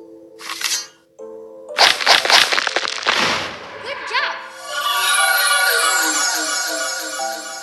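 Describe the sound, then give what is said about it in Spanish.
Sword striking and breaking an obstacle block in a video game: a burst of sharp, crackling crashes and impacts, followed by a sustained bright, shimmering game effect. “Ya les expliqué cómo sacar la espada, ¿vale? Y vamos a eh, romperlo.”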